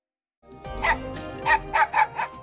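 A dog barks several times in short, sharp, harmonic bursts. The barks are loud and stand alone, with no other sounds around them, and they come more quickly toward the end.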